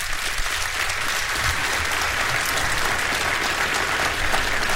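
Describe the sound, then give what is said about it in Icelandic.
Audience applause for a band member at a live concert: a steady, full wash of clapping from many hands, holding an even level throughout without a break. “Þorsteinn Einarsson, gefa honum gott klapp”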